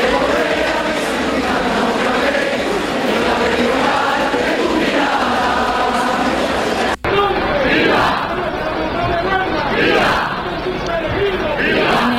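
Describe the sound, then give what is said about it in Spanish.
Crowd cheering and shouting during the presentation of brotherhoods at the El Rocío pilgrimage: a loud, continuous mass of voices with rising surges, briefly cut off partway through. “donde continúa hasta ahora la presentación de hermandades ante la Matriz del Monte con sonidos como estos.”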